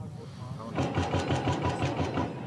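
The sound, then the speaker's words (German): An excavator engine digging new graves at a cemetery in Yerevan starts up after a short quiet lead-in, then holds a steady, throbbing diesel chug with rapid regular pulses, fairly loud and continuous to the end. “Bagger heben immer wieder neue Gräber aus für die vielen Getöteten.”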